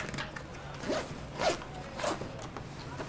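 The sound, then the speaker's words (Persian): A bag zipper is pulled open to take out a laptop, heard as a few short, quiet rasping zip strokes spaced about half a second apart, with faint handling noise in between. “هومن لپتاپش رو از کیفش در میاره”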